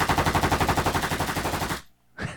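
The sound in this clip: A Gatling gun sound effect fires as a loud, rapid, steady rattle of shots for nearly two seconds, cuts off abruptly, and returns as a brief final burst.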